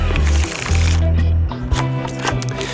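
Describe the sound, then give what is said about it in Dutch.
Playing cards being shuffled and drawn by a guest in a question game, a dry riffling rustle mixed with loud, steady music. “In de rubriek Open Kaart 150 vragen aan de hand van werk en leven. En de gast trekt zelf de kaarten.”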